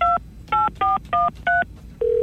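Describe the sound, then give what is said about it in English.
Telephone keypad tones as a number is dialed: five short, even beeps in a quick rhythm, followed by a steady, continuous tone, with no voices. “it's about time we gave Rhonda a call”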